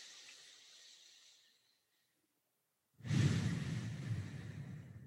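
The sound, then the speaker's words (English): A deep breath is drawn in through the nose during a belly-breathing exercise. A soft, airy breath fades away, a stretch of silence follows, then a louder, rougher rush of air begins and continues to the end. “I want you to try to inhale through your nose as deep as you can and push that belly out as far as you can.”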